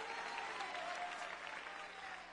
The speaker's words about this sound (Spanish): Ese aplauso al Señor.